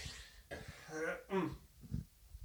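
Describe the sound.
A person clears their throat with a few rough, raspy voiced bursts, fairly soft and brief, followed by a short breathy pause.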